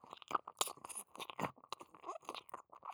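A tongue licks vigorously deep inside an ear, making many rapid, irregular wet clicks, smacks and slurps. They are close and fairly quiet, with no voices.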